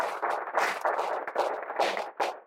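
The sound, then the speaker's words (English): Audience applause after a presentation: a dense, steady patter of many hands clapping, sustained at a fairly even level for the whole clip with slight swells. “Yes, round of applause.”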